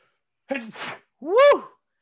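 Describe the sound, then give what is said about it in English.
A person sneezes once: a short voiced intake breaks into a noisy, breathy burst. A loud voiced cry follows, rising and then falling in pitch. “Wow, that was a sneeze.”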